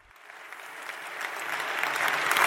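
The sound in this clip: An audience applauds to welcome a speaker at a public discussion on statues, heritage and history. The clapping is dense and steady and grows slightly louder over a couple of seconds.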